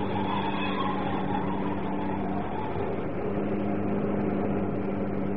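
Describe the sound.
Car engine roaring at speed during a chase in a radio drama, a steady, unbroken drone with a low hum running through the whole stretch and no voices.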